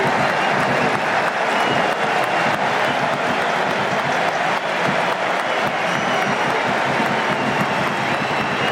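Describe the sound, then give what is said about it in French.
A stadium crowd roars and applauds in an ovation for a substituted player leaving the pitch at a France national team football match, a dense, loud and steady wall of cheering that holds throughout. “on va écouter l'ovation.”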